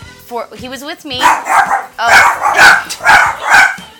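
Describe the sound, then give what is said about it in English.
Dogs barking, with high yips and whines at first, then a run of loud, rapid barks, while people talk. “The dogs. I'm gonna murder those dogs. The dogs are upset about my reading.”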